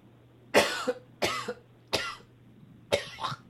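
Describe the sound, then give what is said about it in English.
Harsh coughing from someone who choked on a small piece of carrot: four loud, separate coughing fits spaced about a second apart, several with a quick second catch. “I choked on a little piece of carrot.”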